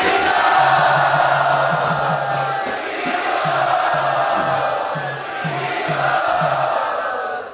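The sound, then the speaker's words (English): Audience giving guests a loud welcoming round of applause and cheers at a gathering: a thick, continuous wash of clapping and raised voices that holds steady and dips slightly near the end. “Let us very enthusiastically offer very loud, heartfelt welcome to Swavas Prabhu and Tadit Mataji.”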